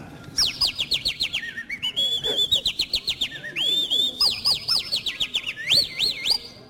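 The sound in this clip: A person imitates a singing bird with the mouth: a rapid, continuous stream of high-pitched whistled chirps and swooping trills, steady and fairly faint, with no talk.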